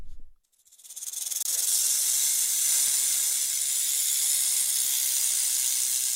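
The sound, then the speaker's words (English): A rattlesnake rattling: a dry, high, continuous buzz that rises in from a brief quiet moment, then holds steady and unbroken for several seconds. “Well, you definitely won't hear that sound in Poland unless, of course, a rattlesnake has somehow escaped from a private, often illegal collection.”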